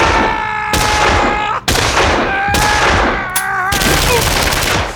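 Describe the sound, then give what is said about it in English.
Heavy gunfire from a 12-gauge shotgun fired from the hip during a shootout. Several loud, sharp blasts come roughly a second apart over a dense, continuous din with steady ringing tones. “That left one, the hard case with the 12-gauge. Whatever else he might have been, the shooter wasn't yellow. With his sidekicks down, he could have run for daylight, but he stood his ground. He stepped into the open, firing from the hip.”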